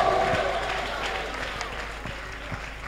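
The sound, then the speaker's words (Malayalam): An audience claps during a Malayalam sermon after the preacher calls for applause and praise to God, with scattered, uneven hand claps under a speaking voice, fairly faint overall. “മനസ്സിലായവർ കൈയടിച്ച ദൈവത്തിന് സ്തോത്രം ചെയ്യാം.”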